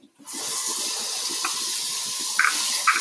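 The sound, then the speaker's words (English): Hot liquid, a wet ingredient for chocolate chip cookies, is poured into a smaller bowl. It makes a steady, rushing splash that runs for about three seconds. “The smaller bowl. Okay, I'll pour it in there for you because it is really hot.”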